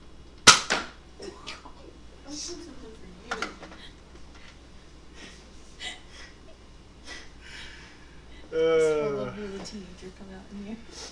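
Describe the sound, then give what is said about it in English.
A Nerf gun fires a foam dart at a mother with one sharp snap near the start, followed by quieter handling noises as people talk. “It's not every day you get to shoot my nerf. Mom. I know. Not every day you get to shoot a nerf dart at your mother.”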